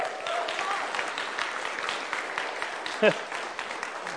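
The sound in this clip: A church audience claps to welcome first-time visitors, a sustained wash of many hands at fairly even loudness with one sharper burst near the end.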